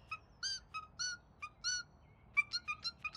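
Bird song with calls that sound like "suki suki": many short, bright whistled notes repeated in quick pairs and runs. The calls are faint and heard alone against a quiet background.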